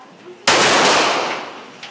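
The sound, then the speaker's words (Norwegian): Gunfire from a firearm at a shooting range in Los Angeles: one loud, sharp blast that fades away over a long tail, then a faint short pop near the end, with no talking. “Når du er klar, fram, finn roen, og så kjør, og så skyter du.”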